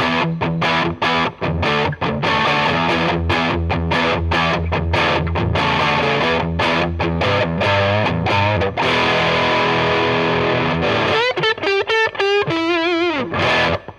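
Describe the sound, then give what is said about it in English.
Overdriven electric guitar played through a humbucker pickup into a Boss overdrive pedal on its Angry Charlie setting: loud, smooth, distorted chords ring out steadily, ending in wavering, bent sustained notes, with no talk. “Tasty. Nice overdrive. That's some smooth overdrive right there.”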